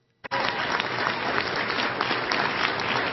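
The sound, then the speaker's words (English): Applause breaking out suddenly after a political speech attacking a Senate leader, a dense, steady wash of many hands clapping that stays loud and even throughout, with no speech over it. “Yeah, clap, Elaine, while you grit your teeth in the dust.”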